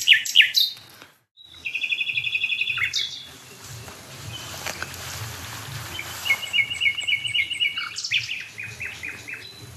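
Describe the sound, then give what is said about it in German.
A nightingale sings in a hedge by a dead oak near barns. Bright phrases of high whistles and trills break off into a short silence, then return as a sustained high note and quick repeated chips. “Die Nachtigall an der toten Eiche in der Hecke, das ist am wilden Esel”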